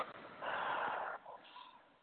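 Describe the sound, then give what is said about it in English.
A deep breath during a guided tapping relaxation exercise: a soft, breathy rush lasting under a second, followed by a fainter, shorter breath, quiet and alone. “Tapping through the points. Deep breath.”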